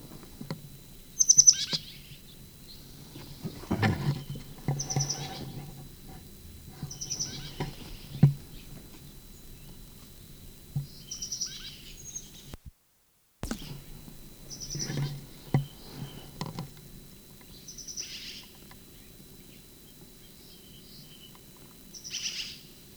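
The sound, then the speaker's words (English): High, thin bird peeps repeat every few seconds, each brief and fairly faint, over a quiet low background with occasional soft thumps and rustles. “Sycamore bird. First peep.”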